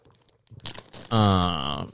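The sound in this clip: Crinkling of a Lifesavers candy wrapper: a few short, crackly rustles, then a loud voice speaking over the end.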